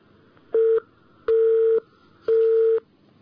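A telephone call comes in on a call-in line with three steady electronic ringing tones, the first shorter and the next two longer, evenly spaced and heard alone against near silence.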